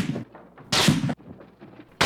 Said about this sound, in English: Shots are fired.